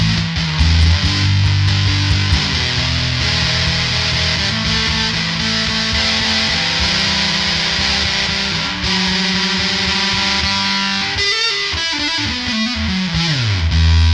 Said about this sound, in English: It's a good sounding Big Muff on the Big Muff side. That's actually with the drive or the sustain down.